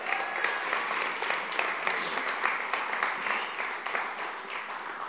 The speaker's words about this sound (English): Can we give it up for our worship team real quick?